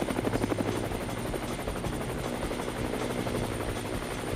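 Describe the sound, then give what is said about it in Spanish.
A helicopter's rotor beats in a rapid, continuous thudding chop over a steady engine whine, holding a constant level throughout with no voices. “El helicóptero ya viene.”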